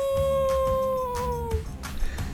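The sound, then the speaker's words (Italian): A person imitates a wolf howl: one long, sustained tone that sinks slightly in pitch for about a second and a half. It sits over a steady, rhythmic musical backing that continues after the howl ends. “Si è pure impegnato a fare l'ululato, eh?”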